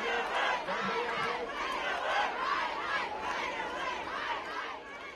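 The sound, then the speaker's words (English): Hundreds of protesters occupying Delhi's ITO crossing raise a rhythmic chant, many voices shouting in unison in regular repeated bursts, fairly soft and steady throughout. “That's the sound of hundreds of protesters taking over Delhi's ITO crossing, right in the heart of the national capital.”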